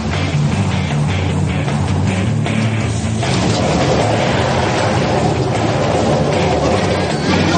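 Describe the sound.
A car with a small exhaust leak grinds through a 30-point turn. A loud, continuous engine rumble with a rough, booming low end shifts in tone partway through as it keeps maneuvering.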